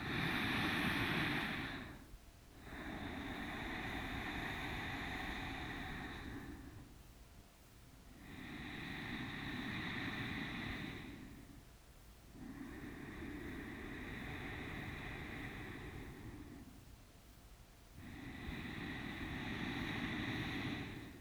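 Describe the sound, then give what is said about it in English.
Ujjayi yogic breathing through a constricted throat: slow, rhythmic rasping breaths with a soft ocean-like hiss, about five long breath sounds separated by brief quiet pauses, steady and moderately loud with no voices. “So let's start with Ujjayi breathing. This is a form of yogic breathing that you hear a lot in yoga classes. It sounds like this.”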